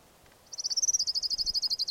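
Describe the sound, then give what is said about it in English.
Orange ground warbler song: a rapid, even series of about sixteen loud, high-pitched pulsed notes that start abruptly and repeat at a steady rhythm, with no other sound around them. “Orange ground warbler number one.”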